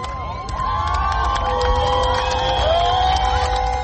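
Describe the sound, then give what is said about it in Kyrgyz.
A crowd shouts and cheers in Yerevan's central square as protesters celebrate news of the prime minister's resignation; a dense, continuous roar of voices and whoops fills the whole clip. “Еревандын борбордук аянтына чогулгандар бул кабарды кыйкырык сүрөө менен кубануу менен кабыл алышты.”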